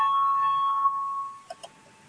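A voting bell rings in a parliament chamber before a vote. A sustained, steady electric ringing tone fades away and is followed by two short, light tones close together.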